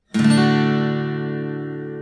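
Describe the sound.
An acoustic guitar plays a D open chord with a single strum. The chord rings brightly and steadily for about two seconds with no other sound.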